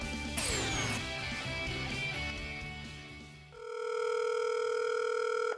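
A telephone rings with a steady, loud electronic tone for an incoming call to a radio station. The tone holds unbroken through the last two seconds, after a dense burst of other sound.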